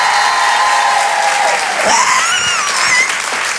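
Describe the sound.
An audience at a live stage show cheers and applauds in a loud, steady wash of clapping, with shrill whistles and cheers rising above it throughout.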